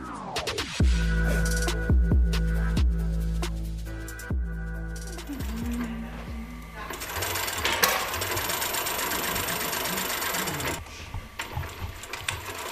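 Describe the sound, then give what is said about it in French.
Sewing machines whir and clack in the Modeschule Berlin fashion school workshop, where dozens of tailors make coronavirus protective masks; steady mechanical rattling with many rapid clicks and occasional sharper knocks. “Nous sommes dans l'atelier de la Modeschule Berlin. Des dizaines de couturiers s'activent à leur machine pour fabriquer un équipement très à la mode en ce moment, des masques de protection contre le coronavirus.”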